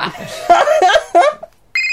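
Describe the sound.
A game-show banker's phone starts ringing at the very end, a bright steady electronic tone with harmonics that follows a burst of voices and chuckling.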